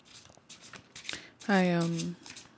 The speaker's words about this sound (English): The Stoic Tarot, pulling a card of the day.